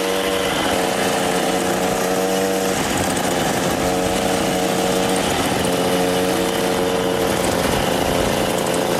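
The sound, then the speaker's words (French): A moped engine from a film runs continuously at a loud, steady, buzzing drone with slight wavering in pitch throughout. “La vie de Jésus, la mobylette, ça faisait partie du décor.”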